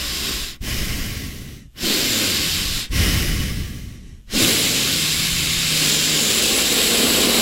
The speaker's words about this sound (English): Please, everyone, mute your mic during your Teams meeting, especially nose breathers.